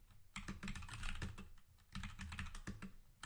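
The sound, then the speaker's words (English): Typing on a computer keyboard: many quick, faint key clicks in irregular bursts, with short pauses between runs of keystrokes and no voices. “Let me type it in.”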